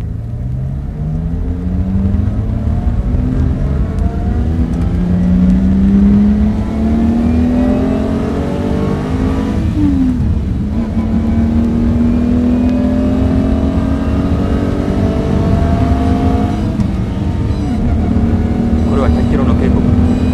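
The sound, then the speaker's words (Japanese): Loud, continuous roar of a Lamborghini Miura sports car on the Fuji Speedway racetrack. The engine pitch climbs steadily, drops at a gear change midway, then climbs again before another shift. “ランボルギーニ三浦で僕と一緒に富士スピードを走りましょう。僕はドライブしますので隣にどうぞ。”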